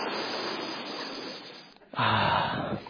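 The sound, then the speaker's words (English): A person takes a breath: one sharp, loud, airy intake near the end that holds briefly. An earlier stretch of softer breathy noise comes before it, with no talk. “Take a breath.”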